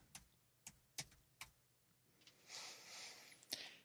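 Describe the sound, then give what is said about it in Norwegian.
Computer mouse clicks while someone checks election results on screen: a few sharp, dry clicks at uneven intervals, with a short stretch of soft rustling near the end, all faint. “Nå klikker jeg inn på den der dingsen og se.”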